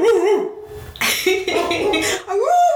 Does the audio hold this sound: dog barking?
yes